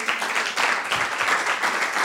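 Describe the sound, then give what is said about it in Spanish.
A church audience applauds with a lively, continuous patter of many hands clapping at an even, moderate level. “¿Cuántos le pueden dar un aplauso a Dios por eso?”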